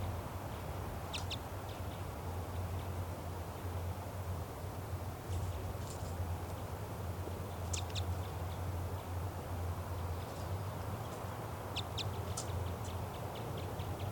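Female bird calling from a tall tree beside its nest tree, short high chirping calls in sparse, irregular clusters over a low steady hum, quiet overall.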